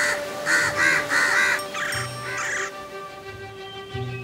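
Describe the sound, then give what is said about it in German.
Crows caw in a few harsh, raspy bursts as they gather at a nest, part of a children's bedtime fairy tale, loud and clear over a steady soft background. “Frau Koring sah Herr Kor und rief die anderen Krähen. Und schon bald versammelten sie sich bei Herr Kors Nest.”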